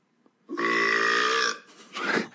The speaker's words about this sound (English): It's my turn for the burp contest